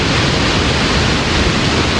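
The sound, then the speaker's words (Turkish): Water pours over the spillway of the full Almus Dam reservoir in Tokat, making a continuous, dense rushing roar that stays loud and unchanging throughout. “İlk kez Savak'tan, yani barajın en üst bölgesinden su bırakıldı.”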